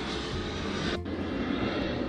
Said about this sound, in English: Hang on. Here it comes again. Oh, that's a plane.